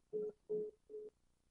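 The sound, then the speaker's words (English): A voicemail recording tone plays as three short, faint beeps of equal pitch in an even rhythm, with no voices. “The person you're trying to reach is not available. At the tone.”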